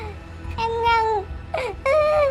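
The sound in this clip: A young girl's crying after a fall, seemingly voiced by an adult imitating her, comes as short, wavering sobbing wails in a few bursts.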